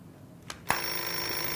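A telephone rings: a soft click, then a bright bell ring that starts abruptly and rings on steadily to the end.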